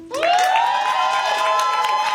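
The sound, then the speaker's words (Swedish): A crowd cheers and applauds for a live act at a music competition final. A loud sustained cry rises in pitch at the start and then holds over the cheering, with scattered clapping underneath. “Ge en varm applåd för henne.”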